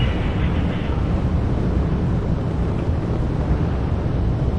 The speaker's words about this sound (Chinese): 现在长江七号遥11火箭已经点火起飞，托举天舟十号升空。